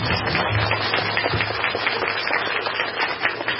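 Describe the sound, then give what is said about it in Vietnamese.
Buddhist laypeople at the Trúc Lâm monastery in Canada give a round of applause, a loud burst of many hands clapping together that runs steadily without voices. “Vỗ tay đi.”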